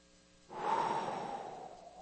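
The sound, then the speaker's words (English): A single long breath blown out into ice-cold air on a cold day. The airy hiss swells suddenly, then thins and fades slowly over about a second and a half, with nothing else heard. “immediately the breath emanating from your lungs hits that ice cold air and the moisture vaporizes before our eyes and forms this little cloud”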